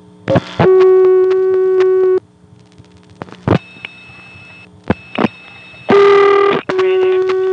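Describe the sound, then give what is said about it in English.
A telephone line being dialed with 01 to reach the operator for repair service: a steady dial tone, a few sharp clicks or bursts, then more sustained tones. “But this time we'll actually dial it. So let's dial 01 and ask for repair service.”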